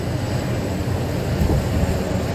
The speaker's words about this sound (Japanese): うわ、なんだあれ、あれは何でしょう、水陸両用の船かな。すごい勢いで走ってきますね。